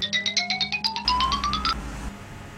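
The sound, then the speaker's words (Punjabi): A mobile phone rings with an incoming call. Its ringtone is a quick run of bright electronic beeps climbing in pitch, followed by a second rising phrase that stops after about two seconds. “ਸੰਤਾ ਕੱਲਾ ਰਹਿਣ ਨਹੀਂ ਦਿੰਦਾ, ਕੋਈ ਨਾ ਕੋਈ phone ਕਰ ਹੀ ਦਿੰਦਾ।”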